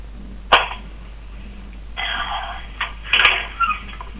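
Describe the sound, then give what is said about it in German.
An ironing board being folded and put away: a sharp knock, then a stretch of scraping rattle, followed by a few quick metallic clatters and knocks, with no talking. “Ja, jetzt wird das Bügelbrett eingepackt. Ja, das klang ja so, als würdest du das mit einer Hand so in den Schrank reinscheppern.”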